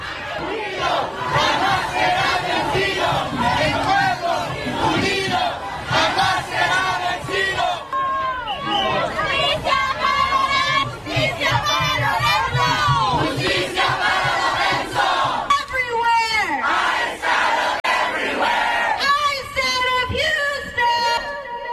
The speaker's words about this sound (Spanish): Parte de los sonidos, parte de las protestas que se han desatado en estos momentos por estos actos de violencia.